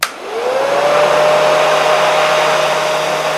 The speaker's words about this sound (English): Hair dryer is correct.